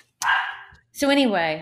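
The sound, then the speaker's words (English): Dogs barking in a house, two short loud bursts of barking a moment apart, with a voice audible alongside. “My dogs are all going crazy.”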